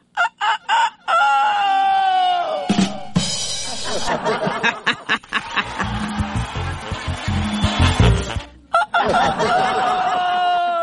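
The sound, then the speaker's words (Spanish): A human voice imitates a rooster crowing, with drawn-out, wavering crow-like calls at the start and again near the end, and rougher, choppy vocal bursts in between. “un animal que por lo regular es el rey del gallinero, que canta como a las 5 de la mañana, 4 de la mañana, y que el sonido... ¿Hace usted el sonido o lo hago yo? Algo así como...”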